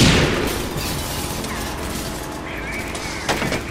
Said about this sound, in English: Grenade! Look out!